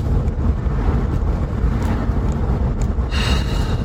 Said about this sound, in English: It's an on the road podcast, baby. This is what we're doing. We're driving back home